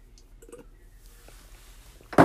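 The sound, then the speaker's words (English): A big Beauty and the Beast mug clunks as it is set down, one short, solid knock at the very end after a stretch of faint, scattered small sounds. “If y'all heard a big clunk, that was my big tail mug thingy, Beauty and the Beast mug type thing that I got from when I graduated high school.”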